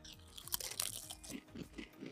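Baconzitos bacon-flavoured snack chips crunch between the teeth, first a few crisp, sharp bites and then softer rhythmic chewing, faint and heard alone.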